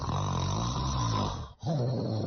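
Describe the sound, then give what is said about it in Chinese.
Loud snoring from a sleeper at night, rough and rumbling with a low droning buzz, in two long breaths separated by a brief pause. “这呼噜打的跟打雷似的。”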